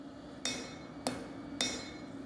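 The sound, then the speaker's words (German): Hammer blows on steel as a knife is forged in a knifemaker's smithy in Hannover: three sharp, ringing metallic strikes, evenly spaced, each with a brief decaying ring, fairly faint and with no talking. “In seiner Werkstatt in Hannover-Dörren schmiedet er seine eigene Version eines der ältesten Werkzeuge der Menschheit.”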